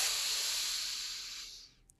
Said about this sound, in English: So let's just all take a really big deep breath in